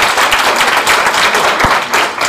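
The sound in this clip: Applause from an audience at an RBMS conference session: a dense, loud, steady patter of many hands clapping, continuous for the whole stretch with no voices.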